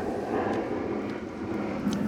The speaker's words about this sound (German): Ah, ein Flugzeug. Oh, ein Flugzeug.